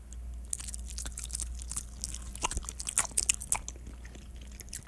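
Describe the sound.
Chewing and biting into lactose-free cheese makes a faint series of soft crunches and moist mouth clicks, growing busier toward the end.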